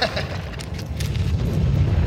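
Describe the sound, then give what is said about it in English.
A wall gives way in a radio drama sound effect, a heavy low rumble with crumbling noise that swells slightly and holds, with no voices. “The wall's giving way. Get under the opening.”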